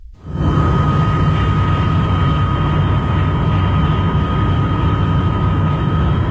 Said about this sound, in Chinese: 飞机缓缓地降落在北京首都国际机场。